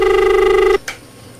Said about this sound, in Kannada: ಕರೆ ಬರ್ತಾ ಇದೆ ನೋಡೋಣ.